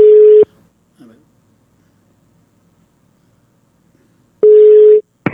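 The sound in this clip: Busy tone on a telephone line after a call drops: two loud, steady mid-pitched beeps separated by a long near-silent gap, with a faint click between them.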